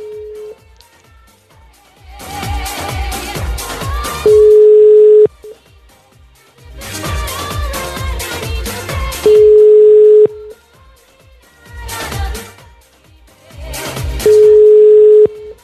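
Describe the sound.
Ringback tones on an outgoing telephone call, a steady single-pitch tone that recurs about every five seconds, with louder music filling the gaps between rings.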